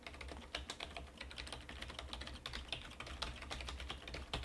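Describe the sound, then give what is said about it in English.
Fingers typing a web address on a computer keyboard: many quick, light keystroke clicks in a fairly steady rapid rhythm over a soft background hum, no voices. “I'm going to type the Freedom Scientific address.”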